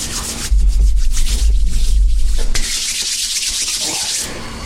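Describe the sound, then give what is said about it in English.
Hands rub a cork pulled from a bottle of Cask 10-year whisky, making a steady, dry friction sound that is loud for the first couple of seconds and then continues more softly. “open up off the top of the cork, put it in your hands, rub your hands together.”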